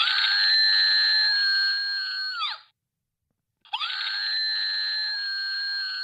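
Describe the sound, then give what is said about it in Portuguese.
Two long, piercing human screams evoke Munch's painting The Scream, each held at a high, steady pitch and bending at its edge. A short silence separates them. “que som é este que nós acabamos de ouvir? É o grito do Munch.”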